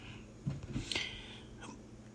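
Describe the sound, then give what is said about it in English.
Faint hiccups from a person during casual conversation: abrupt, short gulping catches with soft breathing between them, quiet and without talk. “Sorry, I got hiccups.”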